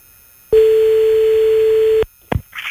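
Telephone tone heard while placing a call: one steady, pure beep lasting about a second and a half after a short silence, then cut off and followed by brief clicks and noise as the line changes.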